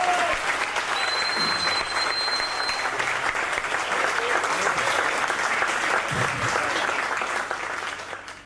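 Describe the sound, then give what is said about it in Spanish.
Audience applause, dense, steady clapping from a crowd that holds at an even level for several seconds before tapering off at the end. “Vamos, aplauso.”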